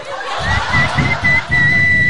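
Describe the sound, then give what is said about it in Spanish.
A person whistles several short, high, clear notes during a participants' whistling contest, with a steady low background rumble underneath. “Yo sé silbar de muchas maneras.”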